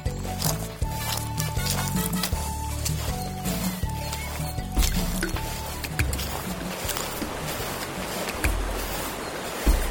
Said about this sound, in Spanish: Ahora vamos a subir a un bote.